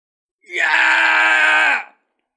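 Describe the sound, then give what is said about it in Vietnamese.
Men scream in agony after being struck by a sword, a single loud, drawn-out anguished cry lasting about a second and a half. It swells in quickly, holds steady, then cuts off, with no talk around it. “Hồng Đế và Thương Đế đều đang gào thét, bọn họ đã chịu quá nhiều đau đớn.”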